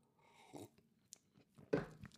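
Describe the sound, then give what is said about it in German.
Soft slurping sip of coffee: a few faint, quiet mouth noises, then a louder gulp near the end, with no talk. “So, jetzt gibt es erst nochmal einen Schluck Kaffee.”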